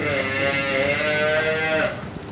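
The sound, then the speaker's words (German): Lowing from a herd of black-and-white and red-brown-and-white cows of Freiburger and Simmentaler breeding trotting past: one long, drawn-out moo with a steady pitch that cuts off into softer shuffling. “Friedlich trottete Herden checken die Kühe an mir vorbei. Schwarz-weiß und rot-braun-weiß mit Freiburger und Simmentaler Wurzeln. Neugierig bleiben die einen vor mir stehen und schnuppern am Mikrofon um.”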